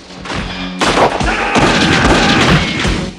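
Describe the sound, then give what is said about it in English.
Gunfire in a film shootout in a bar: after a quieter opening moment, a few loud, sharp shots land with heavy thuds and booming tails. “Mark shoots over the bar, Baxter cowers.”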